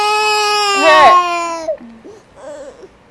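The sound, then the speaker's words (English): A one-year-old toddler whines and cries in a loud, high, wavering wail that breaks off, followed by quieter, fretful voiced sounds. “Stop whining, you whining.”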